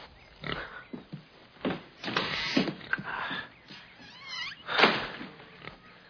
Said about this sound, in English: I really can't accept your pig. It's a done deal. She's your pig now.